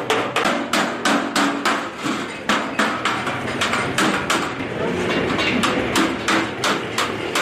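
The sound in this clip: Hammering on metal in a blacksmith's shop in a Kandahar bazaar where stoves and other metal goods are made: many loud, ringing strikes in a fast, steady rhythm that runs almost without a break.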